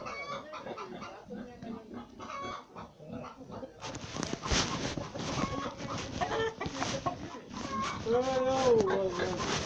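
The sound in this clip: Clucking chickens and a rooster in a flock being given water and feed, with many short squawks and clucks that grow busier in the second half while people talk over them.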